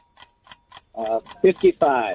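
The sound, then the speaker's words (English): A game show countdown timer ticks with a few light, evenly spaced clicks, then people begin talking over it. “Here's the timer, buddy.”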